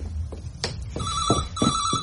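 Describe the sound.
A telephone rings in a home. A few soft knocks come first, then a bright, trilling bell tone sets in and repeats steadily.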